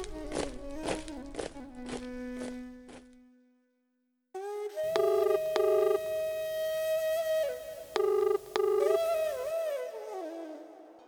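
Telephone dialed to call a brother: a quick run of short electronic keypad beeps, a brief silence, then a longer patterned sequence of electronic tones.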